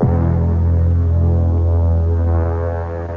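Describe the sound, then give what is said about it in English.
Steady low buzzing hum of a shaver as a royal figure shaves off his mustache, continuous and even for about three seconds before easing slightly at the end, with no voices. “Are you ready, Your Majesty? Oh, I see you're still shaving.”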